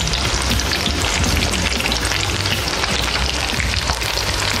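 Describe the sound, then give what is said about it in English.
Pakora fritters, small clumped handfuls of batter, deep frying in oil heated to 350 degrees in a fryer: a loud, continuous sizzle of dense crackling and popping bubbles, steady throughout with no voices. “Now that they're in the fryer, we're gonna let this deep fry for about 10 to 15 minutes”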